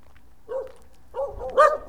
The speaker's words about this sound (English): And there's some dogs here.